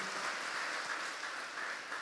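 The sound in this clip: A church audience clapping hands in praise during a sermon, a faint, even patter of many hands that holds steady for about two seconds.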